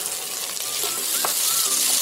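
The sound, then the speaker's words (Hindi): Sliced onions sautéing in a pan for a quick chicken pulao give a loud, steady, hissing sizzle that runs unbroken throughout, with no talking. “Pulao है तो sliced onions बस दो तीन minute उसको saute करना है ये quick chicken pulao है”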